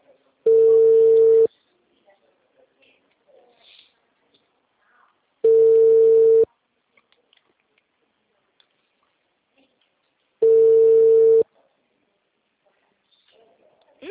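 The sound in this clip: Telephone ringback tone from an accidentally placed call: three steady one-second beeps at a single mid pitch, evenly spaced about four seconds apart, with near silence between them.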